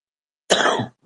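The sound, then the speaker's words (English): A single sharp cough from a man with a cold, loud and brief, rising abruptly and fading out within half a second with nothing else around it. “Excuse me, I don't know why I unmuted the mic just to cough at everybody.”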